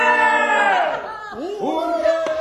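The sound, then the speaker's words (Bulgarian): A crowd of courtiers shouts hurrah. Several voices join in a loud, drawn-out cheer that slides downward in pitch, then break into a few shorter, rising shouts. “Ура! Крещяха придворните.”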